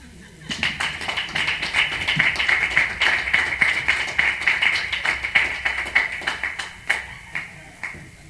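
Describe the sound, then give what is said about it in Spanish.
Applause from an audience at a live gathering: many irregular, crisp hand claps swell quickly and carry on steadily for several seconds before thinning out at the end. “Y después de ese aplauso vamos a recibir con otro fuerte aplauso a Rocío Castillo.”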